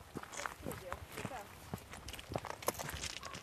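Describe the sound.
Footsteps walking over rock at a Stone Age quarry with layered limestone and slate, a series of uneven scuffs and taps heard under people talking.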